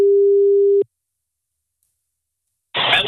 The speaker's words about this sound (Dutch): Ricardo een berichtje, die ga ik even proberen te bellen.